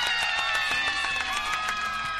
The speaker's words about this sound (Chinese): 所以是给他掌声鼓励就对了